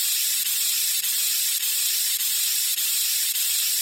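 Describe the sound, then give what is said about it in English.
An aerosol can sprays white paint onto a tree in a steady, bright, high hiss. The hiss runs continuously, with faint regular dips about every half second. “I'll have this tree sprayed before you can... You're getting more paint on yourself than you are on the tree”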